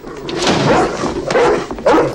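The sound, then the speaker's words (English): Dog barking at home while people are carried into the house, a few mid-pitched barks standing out over busy, continuous background noise. “they carry Star and Laddie in, but Nanook is there barking”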